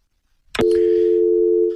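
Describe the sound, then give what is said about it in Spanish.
Telephone dial tone after a dropped call: a short click-like burst, then a loud, steady, unbroken tone that holds to the end. “Y se cayó la llamada.”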